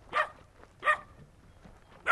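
A puppy whimpering with porcupine quills in its foot on a ranch gives three short, high-pitched yelps, evenly spaced with quiet gaps between them.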